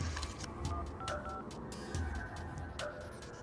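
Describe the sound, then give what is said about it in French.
Keypad tones as someone dials 911 on a telephone, a few short faint electronic beeps with small clicks over a hissy background. “Vers 19 heures, il compose le 911.”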